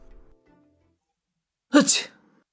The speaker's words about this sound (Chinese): 赵真打了个喷嚏，揉了揉鼻子